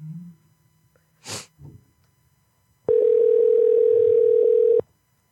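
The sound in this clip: Telephone ringing tone as an outgoing call connects: one steady electronic tone holds for about two seconds. Before it comes a short, noisy, sneeze-like burst.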